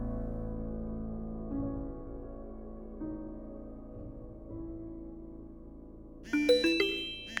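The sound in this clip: A phone message notification chime: one bright ding-dong near the end, following a stretch of low, sustained tonal music.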